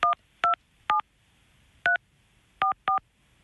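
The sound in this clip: Touch-tone beeps of a telephone number being dialed: six short, clean dual-tone bursts at uneven intervals with a longer pause midway, clear and alone with no talk.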